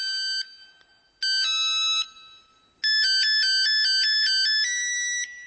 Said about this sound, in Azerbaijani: Mən ən çox telefonda romantik musiqilər qoyuram.